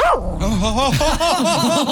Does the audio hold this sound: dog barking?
yes